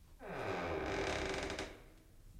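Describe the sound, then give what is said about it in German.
A door being opened gives a drawn-out tonal creak with a wavering pitch. It lasts well over a second, then fades into quiet hiss. “Vorsicht! Ich öffne jetzt die Tür.”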